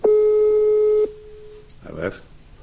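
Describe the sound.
Telephone busy signal while placing a call: a single steady beep lasting about a second, then a brief pause before a voice speaks.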